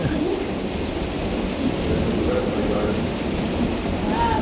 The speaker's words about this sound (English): if you're hearing a lot of white noise, it's pounding rain and hail and thunder right now.